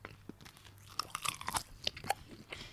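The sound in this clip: Biting into and chewing a classic bratwurst with mustard, with a few crisp crunches followed by softer, moist chewing noises, fairly quiet.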